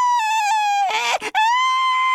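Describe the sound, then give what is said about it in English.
A storyteller's voice imitates a jack-o'-lantern's scream: one long, high-pitched 'aah' with a brief catch partway through, then it carries on at the same pitch until the end. “"Aah!" And he went screeching, screeching off into the woods, deep into the woods, all by himself.”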